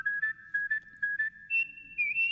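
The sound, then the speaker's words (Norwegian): Human whistling forms a short jingle: a steady clear tone in several rhythmic pulses, then stepping up to higher held notes toward the end. “Håper folk legger merke til at vi har begynt med litt andre plystre jingler Ikke bare den samme plystre jingler”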